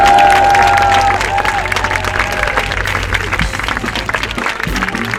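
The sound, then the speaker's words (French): Sustained applause and cheering from a festival audience at a summer fashion festival, a loud, dense wash of clapping and crowd noise that carries through without a break. “Mesdames et messieurs, chers enfants, chers parents, bienvenue au festival à la mode. Sous cette chaleur, ovation.”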